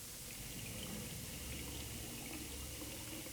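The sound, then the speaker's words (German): Water running from an open tap into a glass, a soft, even hiss of flowing water that continues without a break. It is faint and heard alone. “Ich nehme mir ein Glas Wasser. Warum? Mensch, und deswegen lässt du so lange den Hahn offen?”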